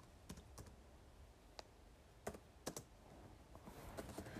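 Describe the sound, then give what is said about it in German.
Keystrokes clatter on a laptop keyboard in a few scattered, irregular clicks, crisp and fairly quiet, with short pauses between bursts of typing and no voices. “Ja, Leute, ich bin echt gerade so inkompetent, bei meinem Laptop zu schreiben.”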